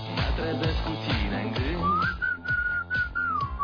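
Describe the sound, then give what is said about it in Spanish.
A person whistles a lively melody, with a high, wavering sustained line in the second half over a rhythmic backing. The whistling is loud and steady, with no speech. “Va de silbidos, ¿eh?”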